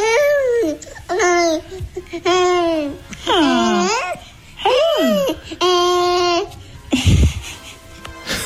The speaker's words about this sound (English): she included an audio copy of him making some noises